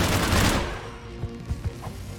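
Video game gunfire with armor-piercing rounds punching through thin cover walls: a dense, loud burst of shots that fades, followed by a few sharper separate cracks.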